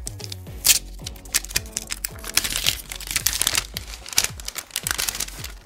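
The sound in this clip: Protective plastic film being peeled off a new OnePlus foldable phone's packaging makes many small crinkles, crackles and tearing snaps in an uneven rhythm, with no talk.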